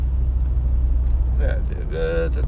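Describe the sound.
Steady low rumble of a car being driven, a continuous engine and road drone that fills the whole clip at moderate loudness, with a brief voice-like sound breaking in near the end.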